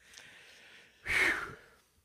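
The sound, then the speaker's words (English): Heavy breathing from a man winded after climbing about nine stairs: a soft, airy breath, then one strong, rushing exhale in the middle before it fades to quiet. Faint overall. “That was only like, what, 9 stairs, and I'm out of breath, man.”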